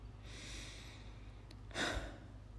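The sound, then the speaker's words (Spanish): A deep breath: soft, airy breathing swells into a brief, louder gust of air, all faint over a low steady hum. “Ok, respira profundo. Por alguna razón eso te calma. Venga, 10 segundos.”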